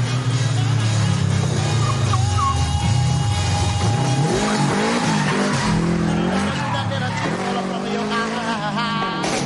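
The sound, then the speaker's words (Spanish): Tyre squeal and engine noise from a car skidding through the curves of a residential estate: long, loud, wavering screeches that run almost without a break. “Circula por la urbanización derrapando en las curvas.”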